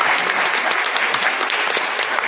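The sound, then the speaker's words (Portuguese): A church audience applauds couples, with dense, steady clapping from many hands that stays loud and even throughout and no voices above it. “Então vocês podem aplaudir esses casais bonitos aqui.”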